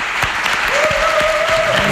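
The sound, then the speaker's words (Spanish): Applause from an audience at a gathering, a dense and steady wash of clapping that fills the full two seconds at an even loudness. “ya arrancaba ahí con el aplauso.”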